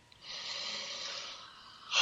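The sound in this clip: Slow breath drawn in through the nose during a guided breathing meditation, a soft, airy hiss lasting just over a second, followed after a short pause by a brief louder burst of air.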